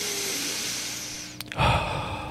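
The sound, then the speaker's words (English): A deep belly-breathing exercise for releasing stress: soft, airy breath noise swells into one fuller, louder exhale near the end, heard alone without talk. “That's when I need to practice my belly breathing.”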